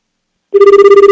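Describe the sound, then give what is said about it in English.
Electronic ringback tone of an overseas telephone call starts after about half a second of silence. It holds one steady tone with fast, even pulses. “Sometimes you should hit a pound sign when dialing overseas. Sometimes not. Let's try this.”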